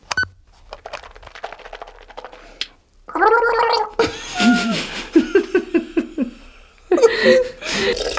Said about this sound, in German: Ja, ich war ja gerade beim Zähneputzen, nicht?